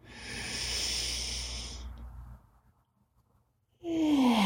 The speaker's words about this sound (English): We're going to breathe in through the nose and out through the mouth. In we go.